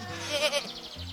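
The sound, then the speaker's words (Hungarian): A young goat kid bleats while playing with a puppy beside a basket of food: one wavering, nasal bleat lasting about a second, clear and fairly loud with no other sound around it. “Be! Szólítja meg a gida a kiskutyát, aki nagyot ugrik ijedtében.”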